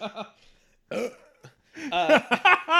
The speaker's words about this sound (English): that was a pretty killer burp